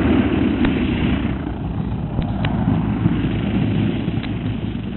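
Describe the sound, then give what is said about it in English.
Aircraft engine droning steadily as the craft comes in to land at a camp beyond a gully, a loud, unbroken roar with little change in pitch and no voices. “Sit tight, we're landing.”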